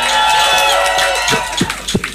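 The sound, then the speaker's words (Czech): Audience applause at a concert after a song, a dense clattering wash of clapping at steady loudness that thins toward the end as a voice begins to speak. “Prosím, ještě větší potlesk zasluží,”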